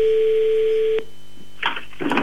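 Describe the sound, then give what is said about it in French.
A telephone dial tone sounds while a call is being placed. The steady tone holds for about a second and then cuts off, followed by a few brief noisy bursts. “Balance le téléphone, on va l'appeler direct.”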